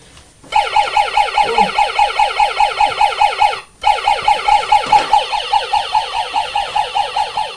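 A toy police car siren, set off when its button is pressed, gives a loud, fast electronic warble that repeats in a steady rhythm. It breaks off briefly midway, then starts again.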